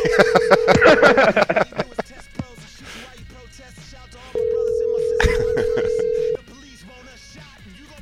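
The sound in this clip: Telephone ringback tones as a call rings through to an unset voicemail box: two long, steady, mid-pitched tones, the second lasting about two seconds, with people talking over them.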